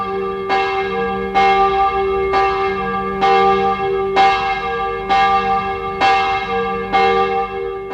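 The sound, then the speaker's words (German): A church bell heard from a rectory in a village, ringing eight loud, evenly spaced strikes about a second apart, each leaving a bright, lingering ring that overlaps the next stroke, with no voices. “Ich saß im Pfarrhaus, als die Glocke ertönte”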